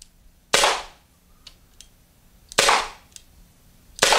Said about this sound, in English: So let's go ahead and charge the Byrna. And it's ready to go. And let's see if we can hit it.